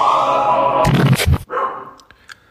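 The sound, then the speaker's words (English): A little dog barks inside a house, giving a few sharp, loud yaps in quick succession that break off into quieter sounds. “What you're hearing is a little pain in the ass dog bark at absolutely nothing, potentially awaking all the other animals in the house.”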